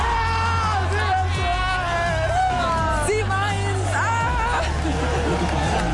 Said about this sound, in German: Ihr Lieben, so klang es gestern beim 7:1 im Cassiopeia Sommergarten.